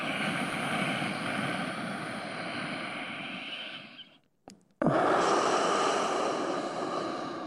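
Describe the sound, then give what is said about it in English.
An exaggerated, complete deep inhale followed by a forceful exhale. Each is a long, loud, breathy rush of air, separated by a brief near-silent pause. “see if you can make the inhale a complete inhale, i.e. don't stop inhaling till you can't inhale no more. This is what it sounds like when I do it. I'm exaggerating it for broadcast purposes.”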